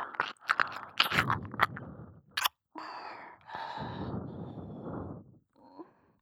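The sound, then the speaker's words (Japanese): Warm breath blown deep into the ear: a few soft, breathy rushes of air, the longest over a second, come after a run of wet mouth clicks and crackles. Everything is quiet and close. “耳穴の奥深くまで私の生温かな吐息が届く。”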